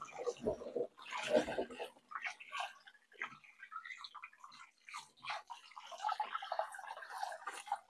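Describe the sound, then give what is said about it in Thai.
Water splashes and sloshes in irregular bursts as something is rubbed and scrubbed by hand in a second rinse of water to loosen leftover bits of soil. “ได้นะคะทีนี้เราล้างไปน้ำที่สองแล้วนะคะก็ยังมีเศษดินอยู่นะคะก็ขยี้เขาเลยค่ะเพื่อให้เศษดินหลุดออกให้หมด”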